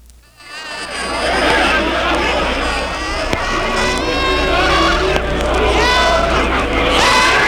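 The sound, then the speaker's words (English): Screaming played in reverse at normal speed from a single stereo track, a loud continuous wash of warbling, voice-like wails and smeared cries with no pauses. “you take some of the screaming and you reverse it. And this is at normal speed now. We're just taking one of the stereo tracks and reversing it.”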